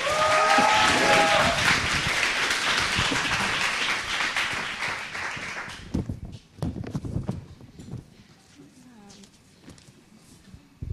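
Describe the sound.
Audience applause welcoming a speaker up to give a testimony at a church gathering, a sustained wash of clapping for about six seconds that then drops away to scattered clattering sounds.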